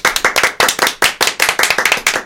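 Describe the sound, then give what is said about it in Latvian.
Applause for the winners of a riddle quiz, made of loud, sharp individual claps in a quick, uneven rhythm that carries on throughout, with no voices. “Aplausi jums!”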